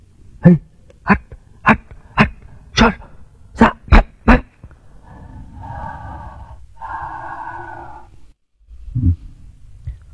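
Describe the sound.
A dog rummaging near a dustbin: a run of about eight sharp knocks in quick, fairly even succession, then a sustained buzzing hum and one last dull thump.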